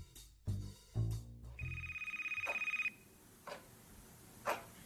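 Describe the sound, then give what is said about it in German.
A telephone bell rings in one fast, rattling trill lasting just over a second. A few dull thumps come before it and a few faint knocks after. “Sie kann einfach kein Telefon klingeln lassen.”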